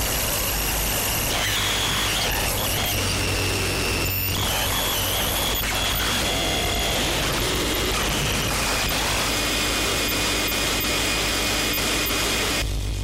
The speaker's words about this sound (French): Ça, c'est le problème de la noise dans un podcast. Je suis obligé de couper ici, sinon vos oreilles vont saigner.